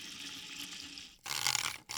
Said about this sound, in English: The usual sounds that come from a busy chef are all there. Blending, pouring,